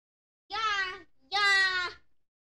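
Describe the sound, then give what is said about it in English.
A cat meows twice, both calls clear and drawn out with a brief pause between, the second louder and longer. “Oh, meow. Yeah. Wanna take a nap? Can't answer. You're busy.”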